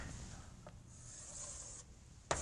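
A pencil draws a line on paper as a faint, steady scratching stroke lasting about a second, followed by a single sharp tap.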